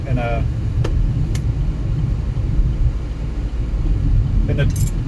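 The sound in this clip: Car driving on a road through a deserted landscape, a steady low engine and tire rumble that stays loud and unbroken throughout, with a few faint higher noises near the start and end.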